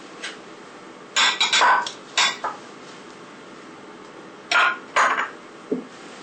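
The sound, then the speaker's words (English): A metal fork presses bread down into liquid in a dish for bread pudding, giving a few scattered clusters of light clinks and scrapes against the dish over a quiet background. No one speaks. “Now, I'll use the fork to just press the bread down, make sure it's nicely covered over with the liquid.”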